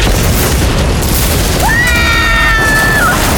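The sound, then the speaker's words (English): Loud, sustained roaring blast from an exploding device, dense and unbroken throughout, with a thin high whine rising in midway, holding, then dropping away. “A concussive backlash shot through the hard wires that connected BB-2 to the device. I, of course, was blown off my feet and thrown across the room”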